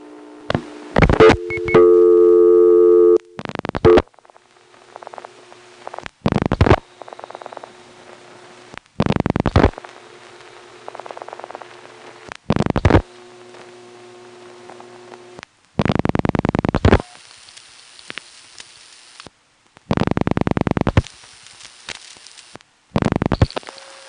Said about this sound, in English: Let's just dial an intra-office call, and of course it'll be step all the way. When it comes time to dial the last two digits, the background noise will change because we will have hit a connector switch instead of just another selector.